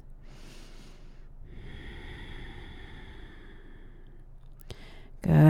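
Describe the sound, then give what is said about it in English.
Slow, soft breathing in and out through the nose during a yoga belly-breathing exercise, a steady airy rush of breath, ending in a sudden louder burst of sound. “And then use your belly to press the air all the way out through your nose. Nice job. So keep this breath going and flowing in and out of your nose.”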